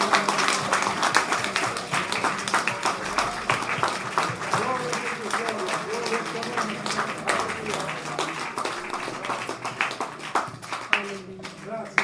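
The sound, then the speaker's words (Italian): Applause from a church audience praising God: dense, steady clapping that runs for the full twelve seconds, with voices mixed in underneath. “Let's give praise to God. Hallelujah. Diamo un applauso a Dio.”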